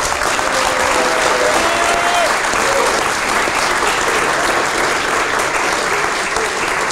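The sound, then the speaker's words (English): Audience applause welcoming racing driver John Surtees at a readers' evening at the Bluebird in Chelsea, dense steady clapping from a crowd that continues without pause throughout. “We're here for a very special readers event with John Surtees. Please put your hands together.”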